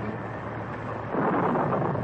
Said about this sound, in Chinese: 一小时又一小时，他们在暴风雨里挣扎着。